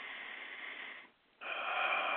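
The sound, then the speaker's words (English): A deep breath drawn by a person: a long, airy, hissing rush of air, a brief pause, then a second, slightly louder breath that continues steadily to the end. “And I breathe.”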